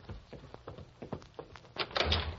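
A door being opened indoors: a faint run of clattering knocks and rattles, growing a little louder near the end, with no talk.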